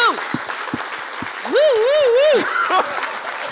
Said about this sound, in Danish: Giv en kæmpe stor hånd til en kropssprogsoversætter.